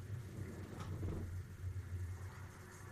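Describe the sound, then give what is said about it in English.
Thunder rumbling outside: a faint, continuous low rumble that swells and settles without clear breaks. “Ooh, it's thundering bad out there.”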